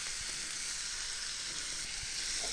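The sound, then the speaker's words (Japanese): Onions frying in a pan over medium heat, making a soft, steady sizzling hiss with faint scattered crackles and no talking. “そしてまた中火で炒めていきます。”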